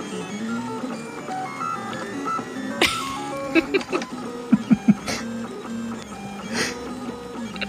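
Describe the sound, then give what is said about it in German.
A printer printing circles, a round gear-like part, gives off a musical motor whine whose tones shift and step in pitch, with a brief cluster of sharp clicks in the middle. “Hört sich sehr interessant an. Der druckt gerade Kreise. Das ist ein Kreis.”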